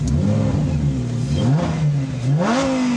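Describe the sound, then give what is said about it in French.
Lamborghini Huracan V10 engine revving: a loud, continuous, throaty roar whose pitch climbs sharply twice, once midway and again near the end, with no voices over it. “Écoutez ça! C'est addictif! Ça n'a rien à voir avec une McLaren Turbo ou les Ferrari V8. Là, on est un vrai V10.”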